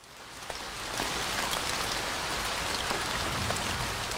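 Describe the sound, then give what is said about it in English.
Steady rain falls with a dense, constant hiss and scattered patters of individual drops. It holds an even loudness throughout, with no other sounds. “Of course, it's the sound of rain.”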